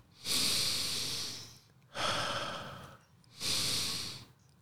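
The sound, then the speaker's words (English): Three deep breaths taken before a tequila shot, each a loud, airy rush lasting about a second, with short quiet gaps between them. “you have to take three deep breaths. So that's one.”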